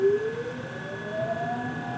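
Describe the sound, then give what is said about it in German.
A line 27 electric tram running through Munich's Maxvorstadt purrs with a soft low hum under a steady high tone, while a fainter whine climbs slowly in pitch. “höre ich die 27er durch die Maxvorstadt schnurren, ganz planmäßig. Und dann denke ich mir, die Welt ist noch nicht ganz aus den Gleisen geraten. Die Straßenbahn fährt ja noch.”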